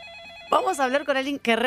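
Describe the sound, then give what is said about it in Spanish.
A Panasonic telephone ringing with a brief warbling electronic ring, after which voices talk over it while faint ring tones continue underneath. “Para el teléfono, ponle mute el teléfono Panasonic.”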